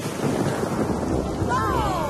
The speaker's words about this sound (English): It has started to rain. Quickly, everyone, back in the car. My goodness, it's raining hard.